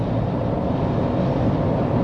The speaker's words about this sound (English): I'm stuck in traffic. It's very difficult. It's very difficult to talk about encouraging one another in Christ when I'm in this kind of rainy day